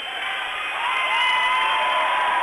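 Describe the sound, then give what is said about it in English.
Crowd cheering and applauding at a basketball tournament game: a dense, steady wash of claps and shouts that swells slightly as it goes. “He's getting a big round of applause.”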